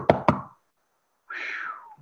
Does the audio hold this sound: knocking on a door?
yes